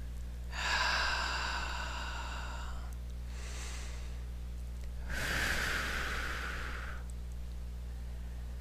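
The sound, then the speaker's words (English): Slow breathy sighs from a deep breath being exhaled during a guided relaxation exercise; a few long, soft airy rushes separated by quieter pauses, with no talking. “Deep breath, please.”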